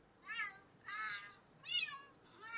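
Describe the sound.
Four evenly spaced meow-like calls from a voice altered to sound like a cat. Each call is bright and high with strong harmonics, clear against a quiet background, and no ordinary talk is heard.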